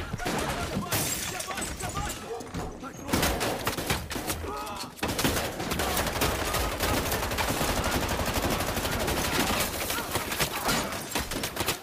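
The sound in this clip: Rapid, dense gunfire fills a 2021 film scene, with sharp cracks running almost without pause and a brief lull near the middle. People shout beneath the shots.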